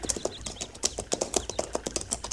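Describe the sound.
Hooves of horses ridden along a tree line make a faint, steady run of many soft clip-clop beats, with light bird chirps above.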